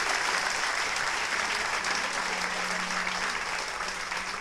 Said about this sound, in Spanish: Aplauso para los jóvenes.